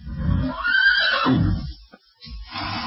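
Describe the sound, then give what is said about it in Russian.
A horse trotting along a shoreline neighs in a loud, drawn-out whinny whose pitch arches up and then down, followed by a short break and a further rougher burst, with no voices. “Гляди, Пеппи, вон твоя лошадь!”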